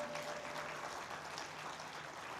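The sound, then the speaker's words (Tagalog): A church audience applauding, a faint, steady patter of many hands clapping together that stays even across the whole stretch. “Palakpakan natin na malakas si Lord!”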